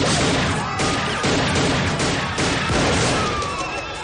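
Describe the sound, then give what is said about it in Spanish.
Gunfire in a 1999 action thriller: a few loud, sharp cracking bursts with a crash-like attack, separated by short gaps. “uno de los dragones ha disparado, pero Nick ha conseguido matarle.”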